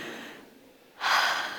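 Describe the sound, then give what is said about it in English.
An audience at a talk takes a deep breath together: a quiet stretch, then a sudden loud breathy rush of many people inhaling about a second in, held steadily to the end. “I want you all just to take a deep breath with me.”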